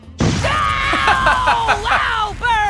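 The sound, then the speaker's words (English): Cartoon sound effect of laser beams shot from a character's eyes: a loud, buzzing electronic zap with a rich whine that wavers and dips in pitch several times and ends in a burst of bright, rising tones. “That is Frylock shooting lasers out of his eyes and, you know, kind of hurting Hesh.”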